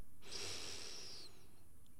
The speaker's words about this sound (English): One final deep breath in to the nose.